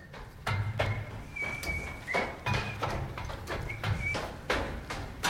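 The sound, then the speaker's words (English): Footsteps jog up metal back stairs, with many sharp, clanking steps falling in an even, quick rhythm. “With his coffee in his hand and his paper under his arm, Harvey jogs up the metal back stairs.”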